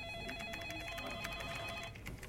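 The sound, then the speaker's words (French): Telephone ringing, a steady electronic ring made of bright, bell-like tones pulsing in quick repeated bursts. It holds at a faint, even level throughout, with no voices. “Mon réveil passe encore, mais ces sonneries insupportables qui m'envahissent toute la journée, là, oh, j'en peux plus.”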